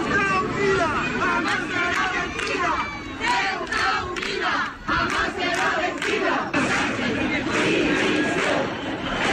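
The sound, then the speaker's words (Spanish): A protest crowd in Ceuta chants for Pedro Sánchez's resignation in loud, rhythmic bursts of many voices, with repeated phrases and a brief dip partway through before the chanting resumes. “Una manifestación que pretendía dejar fuera los signos políticos, pero las imágenes están teñidas de banderas de España y el sonido es el de los cánticos que piden la dimisión de Pedro Sánchez”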